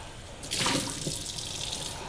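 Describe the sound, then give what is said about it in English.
Water runs from a tap while a cup is rinsed out. A sudden splashing gush starts shortly in and settles into a steady, hissing flow that continues to the end. “And I'm rinsing out this cup.”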